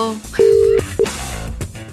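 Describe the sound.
A telephone call is placed to someone. A steady, mid-pitched line tone sounds once, long, then a short second beep follows, with voices talking around it.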